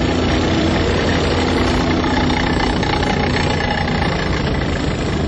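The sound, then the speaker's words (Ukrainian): Heavy engine roar of a column of tanks and armoured personnel carriers driving along an avenue, their tracks tearing up the asphalt: a loud, dense, unbroken low rumble and drone that holds steady throughout, with no voices. “Ліворуч від мене по проспекту їдуть танки і БТРи, знімаючи асфальт гусеницями.”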